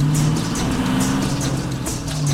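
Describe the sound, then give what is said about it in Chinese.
A jeep's engine is pushed flat out in a chase, giving a steady, loud, low droning roar with road rush over it and no clear change in pitch. “他狠踩油门玩命地向前开去”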